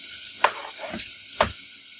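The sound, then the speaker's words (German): Onions sizzling as they fry in a pan, a steady crackling hiss broken by two sharp clicks from stirring. “So, da kommen jetzt die Zwiebeln rein. Während die da so ein bisschen vor sich hin schmurmeln”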